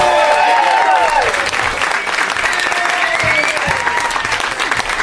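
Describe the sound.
Warm, dense applause from a packed theater audience at the UCB Theater welcoming a performer to a Christmas show, steady clapping throughout with some crowd voices mixed in.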